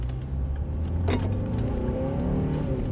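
A Volvo XC60 accelerates in sport mode, its engine giving a steady, fairly loud drone with layered harmonics and no voices.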